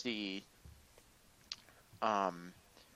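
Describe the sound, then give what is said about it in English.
A phone screen reader's invalid-action sound plays while numbers are being typed: two short, buzzy harmonic tones about two seconds apart, with faint clicks in between. “it makes the voiceover invalid sound, so you know when you like reach the edge of the screen and try and swipe right and there's nothing left, it makes the same.”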